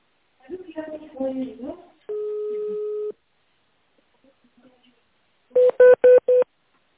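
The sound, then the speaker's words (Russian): Touch-tone dialing on a call to a company's automated phone line: four short, evenly spaced keypad tones, preceded by a brief spoken voice and a single long steady beep. “Если вы знаете номер сотрудника, наберите его в тоновом режиме или оставайтесь на линии.”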